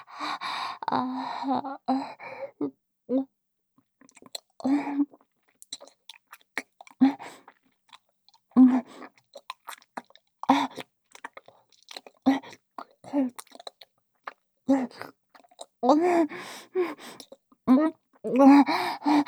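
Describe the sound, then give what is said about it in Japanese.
Chewing of freshly made tempura scraps, salty and sticky, comes as many soft, wet mouth sounds in irregular bursts, with breathy sighs and gasps between them. “こうしているだけで、すごい味。旦那様の出来たて天かす、しっかりと味わわせていただきますね。”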